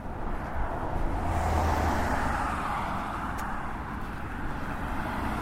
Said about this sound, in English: Here comes some more cars.